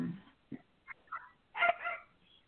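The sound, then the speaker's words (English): A dog barks in the background at home, giving several faint, high yips and whimpering barks at irregular intervals, with a longer cluster of yaps near the end. “Dog in the background barking, or is that a child laughing? It's a dog at my house.”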